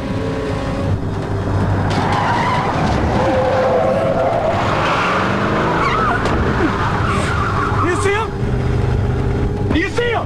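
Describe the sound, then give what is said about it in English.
A pickup truck accelerates hard and swerves out of a semi's path onto a highway. A dense, loud engine roar runs throughout, with tire squeals sweeping up and down in pitch. “Jeff turns the key, puts the truck in gear, and slams the gas pedal. The pickup quickly swerves out of the semi's path.”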